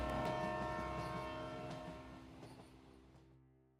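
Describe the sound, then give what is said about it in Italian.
A train departs with a sustained, tonal horn sounding over low rumbling and faint rail clatter, the whole sound gradually fading away toward the end. “Salite in carrozza, parte Espresso Indiano.”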